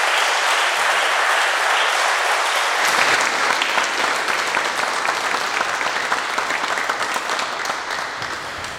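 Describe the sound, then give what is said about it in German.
Applause from an audience at a church community gathering: dense, steady clapping that stays loud and unbroken through the whole stretch, with no voices rising above it. “Und ich denke, es ist ein kleiner Applaus wert, dass es Menschen unter uns gibt,”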